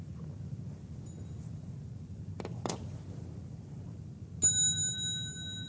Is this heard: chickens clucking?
no